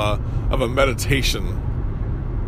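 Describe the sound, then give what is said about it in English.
A car engine hums low and steady, continuing unbroken beneath a person talking. “Close your eyes. You hear the hum of my car.”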